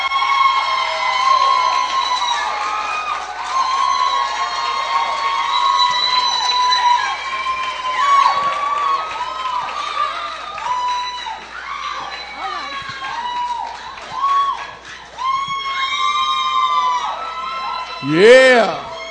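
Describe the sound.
An audience at a church service loudly cheers, shouts and whoops to welcome a minister, a dense, continuous wall of excited voices that swells again near the end.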